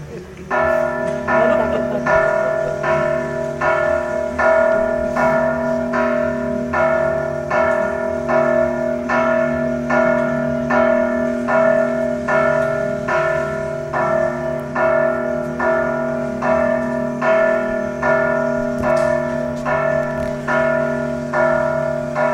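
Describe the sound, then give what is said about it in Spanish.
Church bells ring in a long, steady peal, many evenly spaced strokes roughly one per second, with their ringing tones sustained and overlapping throughout. “hay que esperar a que las campanas no callen a las mujeres en la iglesia”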